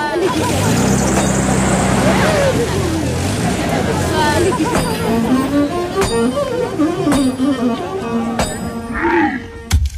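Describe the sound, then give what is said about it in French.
Everyday bustle fills an ordinary market: a continuous babble of overlapping voices, with a few vehicle sounds and scattered sharp clicks and knocks mixed in. “continue cette balade dans ce marché. Un marché moyen, c'est pas extraordinaire ce qui se passe là. C'est une scène quotidienne”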